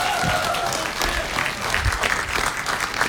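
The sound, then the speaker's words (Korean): Applause from an audience, dense and steady clapping that fills the whole few seconds without a break. “박수 박수 박수”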